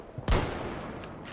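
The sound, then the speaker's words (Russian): Gunfire rings out in a chaotic shooter video game: one sharp, loud blast, followed by a few fainter shots over continuous noise. “Я хоть куда попадаю-то, когда стреляю?”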